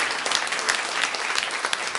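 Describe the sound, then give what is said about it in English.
Hand clapping from a church audience giving praise to the Lord, a dense, steady burst of applause filling the whole short stretch. “Can we give the Lord a hand clap of praise?”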